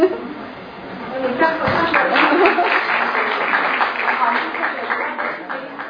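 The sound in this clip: An audience applauds with dense, steady clapping that swells after the first second and continues for several seconds under talking, then thins slightly at the end.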